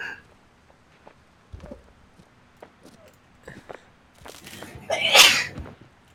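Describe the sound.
A single loud, sharp sneeze bursts out near the end from a person in a room, preceded by a few faint scattered knocks and rustles in near quiet.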